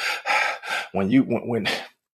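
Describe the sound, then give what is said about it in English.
A voice imitates heavy breathing from physical exertion: three loud, breathy puffs, then a run of voiced, gasping pants. “when we're breathing like that and you're exerting yourself like that”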